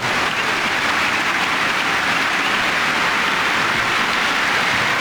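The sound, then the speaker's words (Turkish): A football stadium crowd applauding during an international match involving Norway: a dense, unbroken roar of clapping and crowd noise, loud and steady throughout. “Alkış aldı.”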